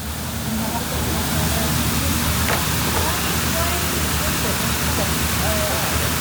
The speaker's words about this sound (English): that's actually an underground stream